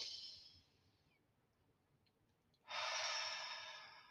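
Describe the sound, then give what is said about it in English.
A deep breath sounds as two soft, airy rushes separated by a quiet pause. The second is longer and stronger than the first, and the whole is faint and close with no talk. “So I'm closing my eyes and taking a deep breath and saying,”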